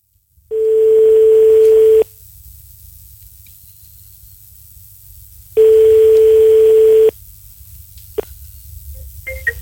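A telephone line tone sounds during a call attempt: two long, steady mid-pitched tones separated by a quiet gap of faint line hiss, followed by a few soft clicks.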